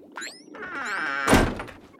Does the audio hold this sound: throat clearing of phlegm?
no

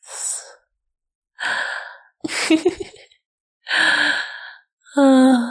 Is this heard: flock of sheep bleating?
no

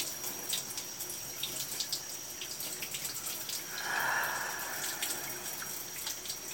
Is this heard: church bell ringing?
no

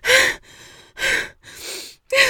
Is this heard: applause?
no

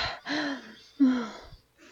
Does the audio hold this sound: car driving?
no

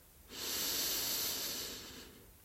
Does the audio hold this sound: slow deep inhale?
yes

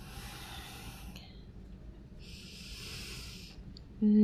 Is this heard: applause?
no

